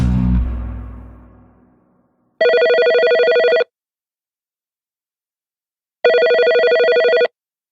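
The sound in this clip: A telephone rings for an outgoing call: two evenly spaced electronic rings, each lasting just over a second, separated by a few seconds of silence. A fading tone precedes them.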